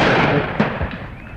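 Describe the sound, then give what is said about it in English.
A shotgun shot fired at pheasants during a shoot: one sharp, fairly brief report rising out of a steady, loud background rumble. “It's the shock. That's a good shot. It's the shock that will actually kill the pheasant”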